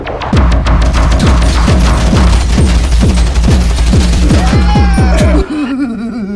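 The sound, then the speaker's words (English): Gunshots fired in a video game ring out in a loud, rapid series of many booming shots that carry on for several seconds and then stop abruptly. “I shot some people.”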